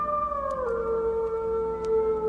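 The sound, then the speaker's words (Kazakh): Wolf howling: a single long howl that slides down in pitch and then holds a steady, drawn-out tone to the end. “Қара аспанда толған айдың ішінен орын алып ұлып отыр көкбөрі.”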